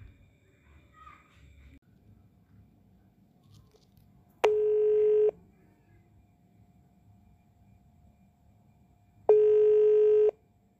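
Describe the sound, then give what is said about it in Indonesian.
Ringing tone while calling someone on a telephone: two long, steady buzzing tones with a quiet gap between them, over faint background noise. “So, aku akan hubungi dia dulu. Wait ya,”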